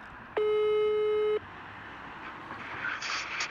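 A telephone call tone sounds while a call is being placed. One flat, steady beep lasts about a second, then gives way to quiet background noise.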